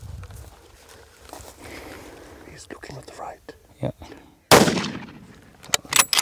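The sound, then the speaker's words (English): A single loud, sharp gunshot rings out while hunting an animal, cracking suddenly after several seconds of hushed whispering and faint rustling, then fading away with soft murmurs following. “And the third shot doesn't kill it.”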